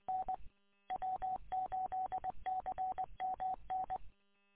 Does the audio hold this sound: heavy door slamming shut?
no